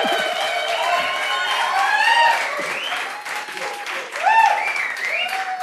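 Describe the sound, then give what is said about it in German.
A live audience in Winterberg applauds with a steady wash of clapping that swells and dips, while voices carry over the crowd noise throughout. “Ihr dürft gerne klatschen. Ja, ihr dürft gerne Geräusche machen.”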